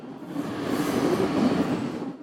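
A train rumbles at a station in Ventimiglia, Italy, before departing for France, giving a continuous low, even rumble at moderate loudness with no voices.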